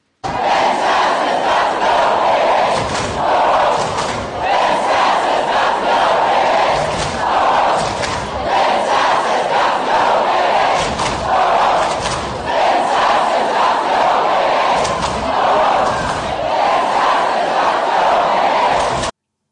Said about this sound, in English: he had to talk over the loud shouting of students, hollering, hey, hey, ho, ho, Ben Sasse's got to go, because they don't want that dude.